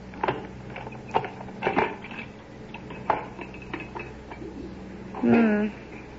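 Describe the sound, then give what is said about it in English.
Lid being taken off a hand-cranked homemade ice cream freezer: a series of sharp clicks, knocks and scraping sounds, followed by a brief spoken exclamation near the end. “Hey, Mom, I wonder how the ice cream is. Yeah, I've been wondering that, too. Why don't we try it? I'll get the lid off.”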